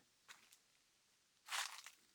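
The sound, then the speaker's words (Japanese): Footsteps crunching on soil and twigs while walking outdoors, a few faint, short crackling steps with soft snaps, the last pair louder and closer together, against near silence. “こういうところを歩くときに出る土とか枝を踏む音が私も結構好きなんだ。”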